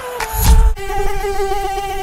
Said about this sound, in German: Aua! Jetzt hat mich schon wieder eine Mücke erwischt.